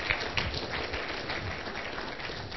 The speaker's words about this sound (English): Give them a big welcome, would you, everybody?